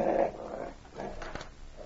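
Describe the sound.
A dog growls in a low, rough, continuous rumble lasting about two seconds, fairly faint and without speech over it.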